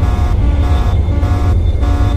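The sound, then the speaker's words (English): Jet engine in a flight video game throttled up to afterburner: a steady, loud, droning roar with a low tonal hum and a hissing top that dips briefly a few times, with no talk. “So I'm gonna throttle up here to afterburner, then back on.”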